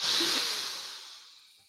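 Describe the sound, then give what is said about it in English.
A deep cleansing breath ends in a long, breathy exhale, blown out loudly at first and then fading away. “We're going to take a deep breath in and then blow out all the bad and fill up with some goodness.”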